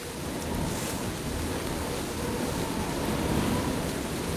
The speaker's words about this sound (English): It's starting to rain. I thought it would.